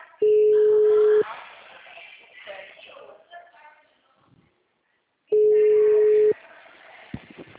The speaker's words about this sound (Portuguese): Não visualizou, eu tô ligando.